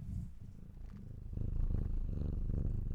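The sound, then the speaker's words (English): A pet cat purrs in a low, steady rumbling drone with a gently pulsing rhythm. The purr swells noticeably louder about halfway through and continues alone without any talk. “Needed some kitten ASMR. That was my cat purring.”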